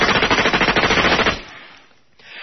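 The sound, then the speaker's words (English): Machine gun blast used as a sound effect: a rapid, loud burst of many closely spaced shots lasting just over a second, then a quick fade into near silence with a faint hiss. “can you take my ex-wife out with, like, a very accurate machine gun blast? Of course I can.”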